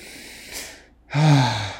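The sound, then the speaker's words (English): Sniffing a scented candle: a long, soft breathy inhale, a short silent pause, then a louder voiced breath with a low hum-like tone. “I'm gonna just sniff it one more time.”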